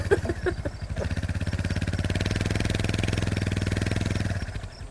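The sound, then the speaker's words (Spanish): An old motorcycle engine runs with a fast, even putter after a few uneven bursts at the start, then cuts off just before the end. The engine is heard alone, fairly loud and steady. “¿Qué carajo es ese bullicio? Es una moto como del tiempo de Cristóbal Colón.”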